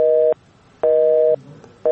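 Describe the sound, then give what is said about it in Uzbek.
Telephone busy signal after the other party hung up on the call: a loud, steady, mid-pitched electronic tone pulsing on and off at an even half-second rhythm, two full beeps and the start of a third, alone with no talk. “Ammo u Ozodlik radiosidan qo'ng'iroq qilayotganimizni eshitishi bilanoq aloqani uzib qo'ydi.”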